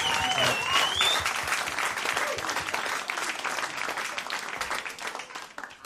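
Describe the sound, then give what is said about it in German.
Audience applause at a live show fills the whole stretch, a dense steady wash of clapping and crowd noise that tapers slightly toward the end, with a voice briefly heard at the start. “Applaus für euch. Applaus für euch selbst.”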